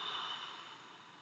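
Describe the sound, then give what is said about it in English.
A forceful exhale blown out through the mouth into a trash can: a soft, steady breathy rush lasting just over a second, faint and alone, easing slightly toward the end. “Take a breath. Blow it into that trash can.”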